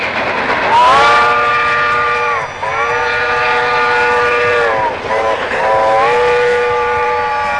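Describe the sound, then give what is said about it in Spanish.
The whistle of an old steam locomotive at a railway museum sounds three long, loud, steady blasts in close succession, each tapering off slightly at its end. “Lindo el museo tren este, ¿no? Sí. Con la locomotora a vapor y todo.”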